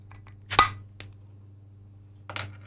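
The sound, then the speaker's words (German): A wrench levers the cap off a beer bottle with one sharp metallic crack and clink. A faint tick and then a second brief clink follow, all over a low steady hum. “so ein Schraubenschlüssel. Damit habe ich gerade den Grundkorken abgehebelt.”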